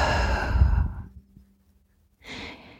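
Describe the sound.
A deep, breathy exhale during a guided relaxation breathing exercise, fading out over about a second, followed by a short silence and the start of a soft breath in.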